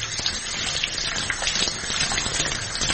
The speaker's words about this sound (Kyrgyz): колду жууп алабыз.